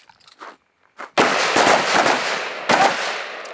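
Handgun gunshots at a shooting range: two loud, sharp cracks about a second and a half apart, each followed by a broad, ringing decay, after a few faint small clicks.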